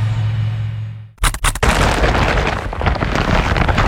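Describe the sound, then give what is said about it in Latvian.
A heavy IKEA shopping bag full of sale goods lands with a sudden sharp crash after a low steady hum, followed by a dense, sustained rustle and clatter. “Dzirdi? Tā skan IKEA iepirkuma maisa ar izpirkšanas precēm.”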